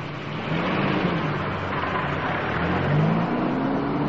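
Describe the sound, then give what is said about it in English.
An SUV pulls out of a driveway with a steady, mid-pitched engine hum that swells slightly as it revs a little higher. “He's pulling out of the driveway. Why do all teachers drive SUVs?”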